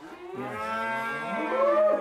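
Galloway cattle mooing in a barn: one long, loud, low moo that holds steady and swells toward the end, heard on its own without talk.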